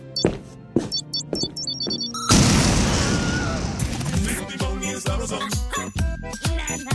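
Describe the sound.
A comedy-sketch time bomb explodes with a sudden loud boom that swells into a dense rumbling roar and slowly fades over several seconds, after brief tones and voices.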